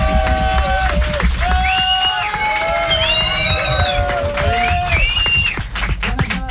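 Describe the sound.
An audience applauds and cheers for a little girl brought on at a live radio event: dense, steady clapping and cheering at an even, loud level, mixed with shouts and raised voices throughout.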